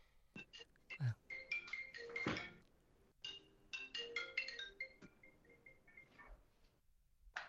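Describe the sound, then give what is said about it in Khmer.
A phone's electronic ringtone sounds during a live interview: faint, high, chiming melodic notes in short runs, broken by pauses and soft thumps. “ក៏ប៉ុន្តែមានសម្លេងទូរស័ព្ទហៅលោកជានិច្ច”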